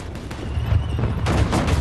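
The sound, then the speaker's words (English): Armored LAVs at the edge of a field fire heavy artillery at distant targets, a dense, continuous roar of gunfire with several heavier booming bursts rising out of a rumbling, crackling wash. “a group of LAVs take up positions at the edge of a field and open fire with their heavy artillery at distant targets.”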